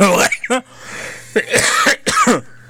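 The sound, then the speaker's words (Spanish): A person with a harsh, persistent cough: a few loud, rough coughing bursts with throat clearing and voiced sounds between them. “Discúlpeme porque ando con una tosesota de perro. No me la acabo.”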